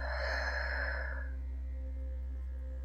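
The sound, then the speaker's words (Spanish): A deep breath out through the mouth during a guided breathing exercise: one soft, breathy rush lasting about a second, fading into a low, steady hum. “Y una tercera y última vez, inhala profundamente. Contienes. Y por tu boca exhalas y sueltas.”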